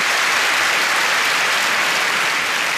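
Steady applause from an audience in a big venue, greeting a funeral director. The clapping is dense and even throughout, with no voices on top.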